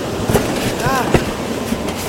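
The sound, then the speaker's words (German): Steady rumbling noise of a train running on rails as it slows, with a few faint clicks and a brief wavering squeal. “Hey, der Zug wird langsamer!”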